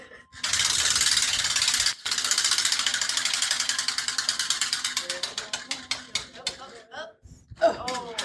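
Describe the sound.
A prize wheel spun at an aquarium event clicks against its ratchet in a rapid, loud stream that gradually slows into widely spaced ticks before stopping, with voices reacting at the end.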